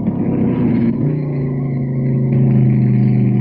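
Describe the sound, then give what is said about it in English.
A 383 cubic inch, 335 horsepower wedge V8 car engine with a Hurst 4-speed gearbox runs with a loud, steady, tonal drone. Its pitch shifts in a couple of distinct steps, and no voices are heard. “335 horsepower wedge V8 engine.”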